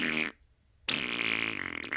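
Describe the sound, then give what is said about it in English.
Fart sound effects from a playlist heard through an earbud: a short buzzy blast, a pause, then a longer, louder, sputtering fart that wavers near its end. “it was just fart sounds. He was just listening to fart sounds.”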